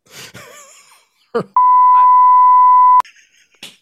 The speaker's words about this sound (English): I'll bleep this as is flagrant.